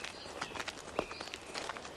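Footsteps of people walking into a neat, orderly garden: a steady run of soft, light steps with one sharper step partway through.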